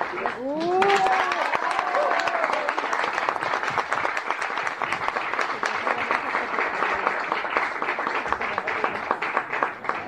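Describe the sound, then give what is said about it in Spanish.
Sustained audience applause at an award ceremony in Colombia, dense, steady clapping that runs for about ten seconds, with brief voices near the start. “Y con más aplausos para el... Mario Martínez.”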